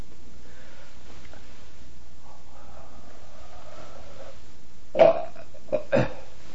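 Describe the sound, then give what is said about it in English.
A gag breath made with the throat closed, demonstrated by a person: a few short, harsh guttural bursts on the exhale, the first the loudest, following faint, quiet breathing. “I'll illustrate the sound of closing the throat.”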